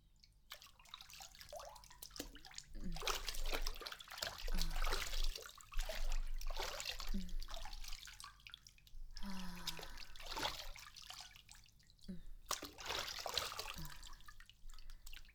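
Hot bath water trickles faintly in an irregular run of soft drips, splashes and gurgles, swelling and easing in small bursts throughout.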